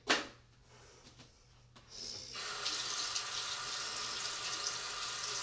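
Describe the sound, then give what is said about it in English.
Tap water runs as a mud mask tool is rinsed under it. A short click and a quiet pause come first, then a steady, fairly faint hiss of flowing water continues to the end. “Oh, my mud mask tool is kind of dirty. I should rinse it off.”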